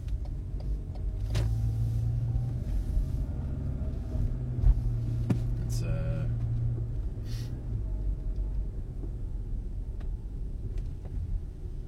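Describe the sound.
Low, continuous rumble of a car driving home, with steady engine and road drone and a few faint clicks and ticks scattered through it.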